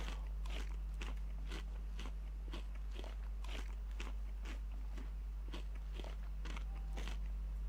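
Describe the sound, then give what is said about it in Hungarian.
A pet eating chicken meat, biting and chewing with many sharp crunches in a steady, regular rhythm over a constant low hum. “úgyhogy bepuszilunk egy kis csirkehúsit. Egyél, fiam, egyél.”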